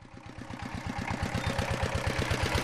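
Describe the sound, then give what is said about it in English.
The motor of a brick kiln in Dhaka, Bangladesh, runs with a rapid, even low chugging over a broad rumble. Many regular pulses repeat with no voices. “Now that's the motor of a brick kiln in Dhaka.”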